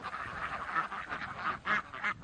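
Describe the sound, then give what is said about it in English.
Indian runner ducks quack in a vineyard, giving a few short, nasal honking calls in quick, uneven bursts over a soft background. “So the idea was that he chose Indian runner ducks. They walk quite upright and they get into the cracks of the vineyard.”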